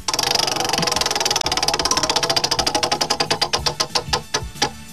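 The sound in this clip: A prize wheel spins with rapid, loud ticking clicks that gradually slow and spread apart as the wheel winds down toward a stop.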